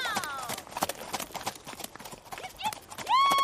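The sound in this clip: Hooves clip-clopping as several saddled horses are ridden out: many quick, uneven hoof strikes at a steady gait, with a horse whinnying near the start.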